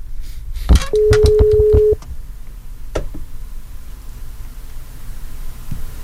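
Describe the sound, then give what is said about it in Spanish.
A single steady mid-pitched ringback tone of an outgoing telephone call sounds for about a second, framed by a few sharp clicks and knocks, then only low background hiss remains as the call goes unanswered. “Si no contesta en 3 segundos, la vamos a colgar.”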